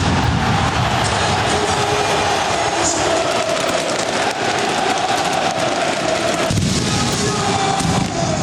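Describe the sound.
Fireworks crackle and pop at a Porto stadium during a league championship celebration, with sharp bursts scattered over a loud, continuous wash of noise.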